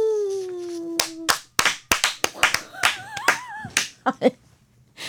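Hand claps from two people, a run of many sharp, irregular slaps in quick succession, loud against a quiet background, opened by a sustained falling tone and crossed midway by a brief warbling tone.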